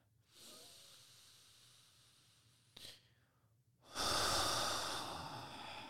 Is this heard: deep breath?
yes

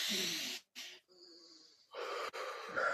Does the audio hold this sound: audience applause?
no

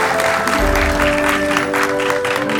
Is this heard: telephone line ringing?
no

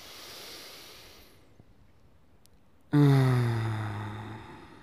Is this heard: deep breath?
yes

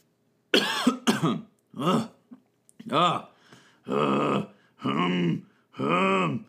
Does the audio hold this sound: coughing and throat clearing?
yes

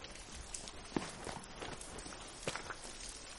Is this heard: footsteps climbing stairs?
yes

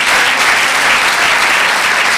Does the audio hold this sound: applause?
yes

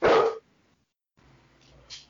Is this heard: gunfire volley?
no

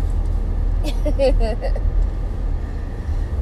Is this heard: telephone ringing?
no

